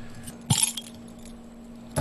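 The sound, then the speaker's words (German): Keys jangle and clink against an Altbier beer bottle as it is pried open without a bottle opener: two short metallic rattling bursts, with a faint steady hum between them. “Jo, das hat jetzt nicht so ein, das hat eher so ein Schlüsselgeräusch gemacht gerade. Schlüssel, ja. In der Hektik heute kein Flaschenöffner eingepackt. Muss auch mal ohne gehen.”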